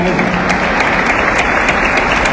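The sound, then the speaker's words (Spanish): Applause from the audience at the official inauguration of the school year at the Aurelio Ochoa educational unit in Turi parish: dense, steady, loud clapping that continues without a break. “Quiero reconocer esta acción del Gobierno Nacional y un aplauso, por favor.”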